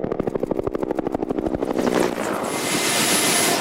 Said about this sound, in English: We were right behind them in the Huey with Jacques Flamand and the game capture team.